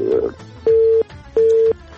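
Telephone line tone after a call is cut off: two steady, mid-pitched beeps of equal length separated by a short pause, loud and clean.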